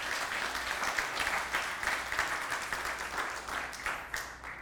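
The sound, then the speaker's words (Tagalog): Faint applause from a church audience at a worship service, many hands blending into a sustained patter with small swells and dips. “Palakpakan nga po natin si Lord. Hallelujah.”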